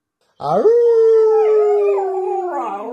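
A person imitates a dog's howl with one drawn-out "ow" that swoops up, holds a steady tone for about two seconds, sags gradually, then wavers at the end.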